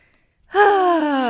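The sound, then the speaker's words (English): A deep breath let out as a voiced sigh: after near silence, a sustained, smooth vocal tone rises in quickly and holds, drifting slightly lower in pitch, alone without any talk. “A deep breath.”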